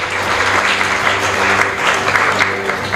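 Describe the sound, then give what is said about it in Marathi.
An audience claps loudly and continuously, a dense, steady wash of applause that stays at an even level from start to finish. “पण दादानं तुम्ही टाळ्या वाजवल्यात”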